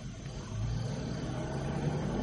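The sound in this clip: A car engine pulls away with a steady low drone. It swells in loudness after the first half second and holds at that level to the end.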